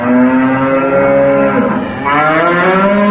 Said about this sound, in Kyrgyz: Ар кайсы жылдары курулган сарайларга жакындай бергенде мөөрөгөн букалардын үнү болду.